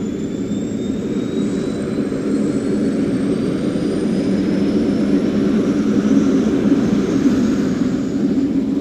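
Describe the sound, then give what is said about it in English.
An aircraft engine throttles up for takeoff: a loud, steady, low roar with a thin high whine that climbs slowly in pitch throughout. “Ignition. Adjust the throttle. And away we go.”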